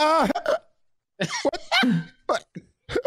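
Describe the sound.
A man imitating hiccups with his voice: a few sharp, voiced gulping bursts separated by short pauses, loud and close, with no other sound.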